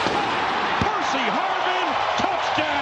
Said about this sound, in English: Brett Favre hitting Percy Harvin with a rocket. Here is how it sounded. Brett Favre goes out of the shotgun, pats the ball, fires to the...